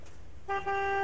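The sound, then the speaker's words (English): A Ford Mondeo car horn honks: a thin, steady, fairly faint tone starts partway in, breaks off for a moment, then is held to the end. “I'm driving a Ford Mondeo. Mmm. nice wheels. Let's hear their horn.”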